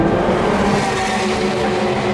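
Race car engines roar together at the start of a 24-hour endurance race, a dense, continuous blend of loud engine noise that holds steady throughout.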